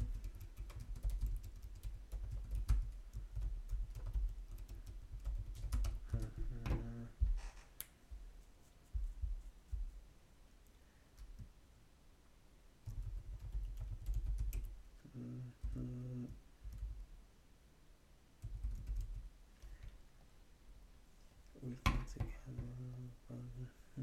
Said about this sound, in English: Now just started writing notes.